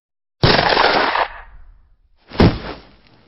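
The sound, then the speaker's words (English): Two loud gunshots from a real gun ring out alone. The first strikes sharply with a long, noisy decay, and the second hits after a pause of about two seconds, then fades more quickly. “Oh my God, that was a real gun.”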